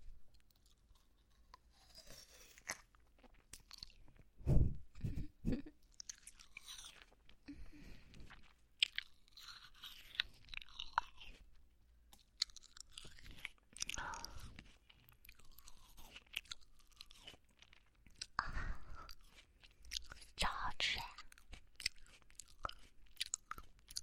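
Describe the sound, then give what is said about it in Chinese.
Crunchy bites and chewing of fruit, quiet and close, with several sharper crisp bites separated by softer, irregular mastication and brief pauses. “吃着喜欢吃的水果， 然后就这样跟你在一起。那再吃一口了。”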